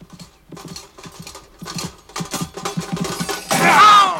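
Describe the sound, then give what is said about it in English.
Horses trotting as lance-bearing knights ride to their jousting positions, hooves clip-clopping in a steady, rhythmic patter that grows louder and ends in a loud, noisy crash. “Both he and Don Quixote mounted their horses, trotted away to take up position, leveled their lances, and... Charge!”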